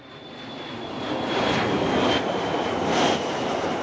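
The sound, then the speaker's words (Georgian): An airplane in flight gives a loud, steady engine roar with a broad rushing texture and a thin high whine, swelling slightly a few times as it continues. No talking. “თვითმფრინავი ფრინდება?”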